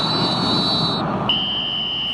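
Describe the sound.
A referee's whistle sounds at the end of the first half of a World Cup football match between Australia and Turkey: two long, shrill blasts, the second slightly lower in pitch, over a steady roar of crowd noise.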